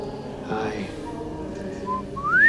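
A person whistles a short tune, clear bright notes with the final one gliding upward, over a steady low background murmur.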